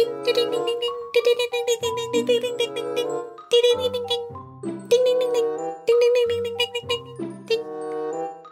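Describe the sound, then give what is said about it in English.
Bright bell chimes ring out in a tune-like run of ringing tones, with a low sustained accompaniment beneath. The notes come in several bursts, each with many fast, overlapping strikes, fairly loud throughout. “Is there a bell? I was just going to say that. There is a bell.”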